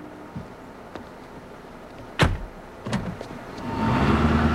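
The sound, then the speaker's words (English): Car driving away: a few faint clicks and two sharp thuds, then engine noise swells and holds loud through the final second. “She drives away and Vandenbroek watches her leave.”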